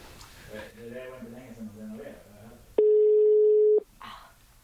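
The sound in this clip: A steady telephone dial tone sounds for about a second as a call is placed, alone between stretches of people talking.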